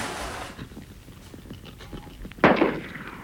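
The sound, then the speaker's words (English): A single revolver shot fired into the air from a window: one sharp, loud crack that stands out against a quiet, hissy background. “Fire your revolver out of the window.”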